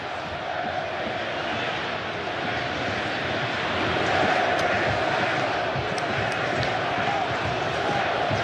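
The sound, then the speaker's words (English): Australian football fans making a burst of noise in a World Cup stadium, a dense, steady crowd roar that swells slightly midway and holds. “Was the Australian fans down to the right making a little burst of noise.”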